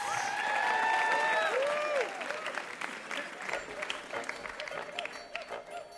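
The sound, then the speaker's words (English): Audience applause for contestants at the end of a radio quiz show: full, lively clapping at first that eases after a couple of seconds into lighter, thinning applause. “Give them a hand, our contestants.”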